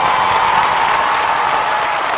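An audience applauds at a religious gathering, a dense, steady wash of many hands clapping loudly and continuously with no break.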